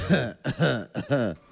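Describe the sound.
Person coughing in a few rough, voiced bursts in quick succession with short pauses between. The coughs are fairly loud and heard alone.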